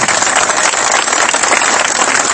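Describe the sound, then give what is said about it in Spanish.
Applause from an audience at a talk about a fountain in Luján's Plaza Colón, a dense, loud, steady wash of clapping that holds at an even level throughout, with no voices. “un aplauso también.”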